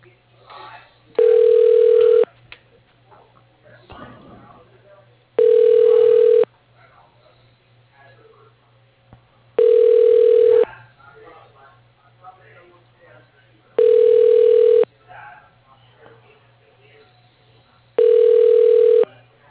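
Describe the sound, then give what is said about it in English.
Telephone line tones play during a call transfer: five evenly spaced, steady tone bursts of about a second each, repeating every four seconds over a low continuous hum with faint background noise between them. “I'll just transfer and you can leave a message on his voicemail.”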